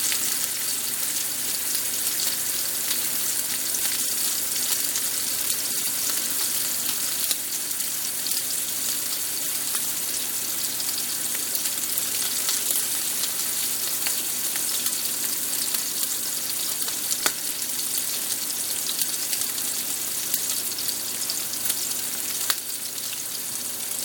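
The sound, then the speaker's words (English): Pork sizzles as it fries in a pan: a continuous loud hiss with scattered small crackles and pops. No one speaks. “Plates back down there. I'm not really touching the pork whilst it's in the pan.”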